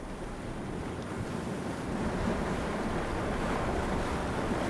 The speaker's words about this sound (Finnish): Tuuli suhisee korvalehdille. Se voi yltyä.